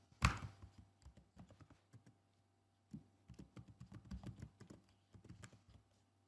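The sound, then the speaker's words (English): Login credentials are typed on a computer keyboard, with soft, quick key clicks in uneven bursts after one louder initial clack, a short pause, then another flurry of tapping. “Access the website. Click on the login. Enter my credentials.”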